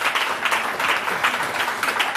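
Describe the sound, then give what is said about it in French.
Applause: steady, dense clapping from many hands that fills the whole clip at an even, moderate level, with no talk over it. “on applaudit déjà nos décodeurs pour ces magnifiques définitions.”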